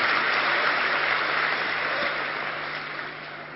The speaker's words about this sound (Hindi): कंजूसी ना करें, करतल ध्वनि से स्वागत करेंगे।